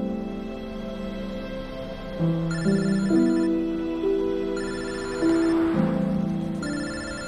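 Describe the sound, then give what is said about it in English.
A telephone rings with a melodic electronic ringtone: layered, sustained tones shift between notes in a repeating pattern. It plays steadily at moderate volume, with no voices. “She answers her phone.”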